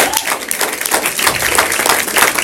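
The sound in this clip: Audience applause: dense, fairly loud clapping from many hands, slightly uneven in intensity and continuing without a break.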